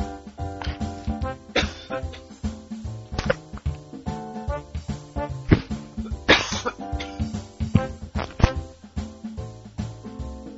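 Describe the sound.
Many harsh, percussive coughs burst out in close succession, some loud and some fainter, with one especially forceful burst partway through and no talking alongside.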